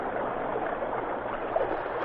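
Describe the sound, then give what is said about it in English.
River rapids rush past in a steady, broad wash of water noise. The sound stays even and continuous, with no voices. “Look, here he comes under the rapids.”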